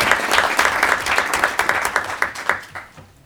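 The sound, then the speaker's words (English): Audience applause at a board of education meeting for a freshman student representative: dense, steady clapping that tapers off near the end. “I'll make sure that he gets that certificate. You give him a hand.”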